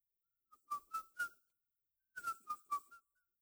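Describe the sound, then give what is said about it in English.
A person whistles a short tune in two brief phrases of several clear, bright notes each, separated by a pause, with no talking. “What's the saying? Whistle while you work.”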